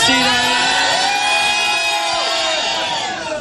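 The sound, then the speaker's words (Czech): A studio audience shouts together at a New Year's Eve radio show, raising a loud, sustained roar of many voices that eases slightly at the end. “A aby jsme vám to krásně ukázali, pojďme tady všichni ve studiu zakřičet, kolik je tady lidí.”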